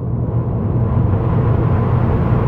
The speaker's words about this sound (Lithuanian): Tai prieš 20 metų įrengto, Daikin Alterma šilumos siurblio garsas.